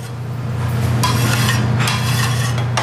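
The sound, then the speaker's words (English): Dishes and utensils clatter during BLT and egg salad sandwich prep in an industrial-sized kitchen, a few sharp clinks and knocks over a steady background hum. “At lunch, three women in recovery help prep BLT sandwiches and egg salad in the industrial-sized kitchen.”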